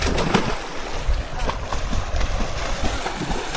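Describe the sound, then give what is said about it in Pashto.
Splashing of a young man swimming in the water of a deep reservoir, irregular churning strokes and slaps, with voices in the background. “دغه کم غږ چې تاسو اورئ یو ځوان دی چې په اوبو کې لامبي.”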